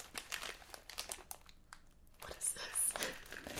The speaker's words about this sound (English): Okay, so I got this box. Dear Lord. I'm not gonna show it, but I'm gonna cut it open.